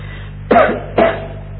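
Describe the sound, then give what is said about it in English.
Two sharp coughs from a person who had eaten a Brazil nut for breakfast, spaced about half a second apart, each a loud burst that fades quickly over a steady low hum. “Excuse me coughing like this. I had a Brazil nut for breakfast.”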